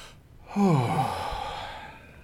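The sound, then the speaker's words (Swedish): One deep breath comes out as a long, voiced sigh that swells quickly and then slowly fades over about two seconds, heard alone without speech. “Jag tror att det är bra om vi försöker ta ett andetag. Ja, men då tar vi ett djupt andetag.”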